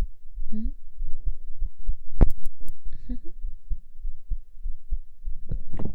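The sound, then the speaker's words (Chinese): A heartbeat, heard as a steady run of many low, soft thuds in a quick, regular rhythm, with a few faint clicks and rustles between the beats. “主人的心跳是不是跳得很快？ 仔细听哦。”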